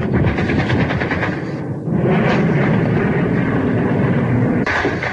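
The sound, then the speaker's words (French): A dense, loud, continuous roar fills the scene as Phantom jets pass overhead after firing rockets and heavy machine guns answer, during street fighting in Nicosia in 1974. The din dips only briefly once. “Et s'en va vers l'horizon alors que les mitrailleuses lourdes lui répondent. Voici maintenant un autre fantôme qui passe au-dessus de nous et qui a largué lui aussi ses roquettes.”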